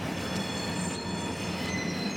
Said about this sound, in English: Nearby freight train cars clash.